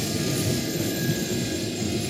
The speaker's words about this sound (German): Hier rollt der ICE durch das Betriebswerk.